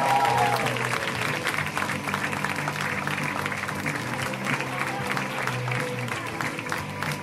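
Applause from a comedy club audience welcoming comedian Mike Lawrence, in from New York, to the stage: a sustained, even patter of many hands clapping that continues without a break.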